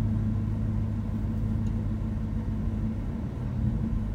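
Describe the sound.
A car rolls along a road with a steady low rumble and a soft engine hum, fairly quiet throughout and with no one talking.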